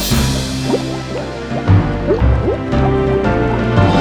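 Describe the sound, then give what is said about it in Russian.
Water splashing and dripping under a children's song, with several liquid plops and splashes mixed into steady music. “Всплеск, всплеск, всплеск воды!”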